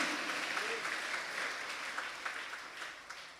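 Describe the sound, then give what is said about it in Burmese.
A church audience applauding: dense, steady clapping from many hands continues throughout at an even level, fading slightly toward the end. “လက်ခုပ်တီးလက်ထိုးဖရားကိုအားပါချီးမွမ်းရဟာလေလုယာ”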